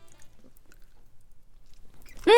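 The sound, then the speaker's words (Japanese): Soft, moist chewing of a convenience-store sweet with plentiful cream, strawberry sauce and sponge inside. Faint, irregular bites and squishes continue until a voice briefly starts at the end. “では食べてみます”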